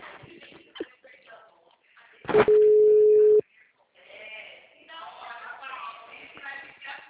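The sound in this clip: A telephone ringback tone sounds while a call is being placed: one steady, low, buzzing tone lasting about a second, with speech before and after it.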